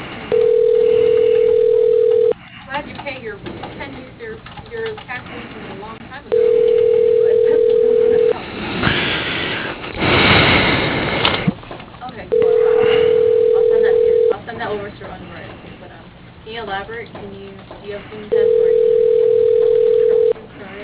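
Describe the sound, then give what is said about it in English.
A telephone ringing an office extension after it is dialed: four steady, loud, mid-pitched ring tones of about two seconds each, evenly spaced, with people talking and background noise in the gaps between them. “Extension 101. Dialing.”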